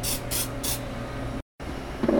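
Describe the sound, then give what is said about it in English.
Nonstick cooking spray hissing onto waffle cone irons in three short, loud bursts at the start, followed by a steady low hum of background noise with no talk. “I'm just spraying these down with some nonstick spray.”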